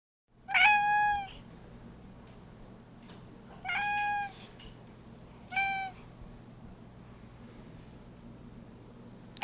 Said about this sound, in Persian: راستی بچه ها گربه که دیدین، همون که میگه میاو میاو،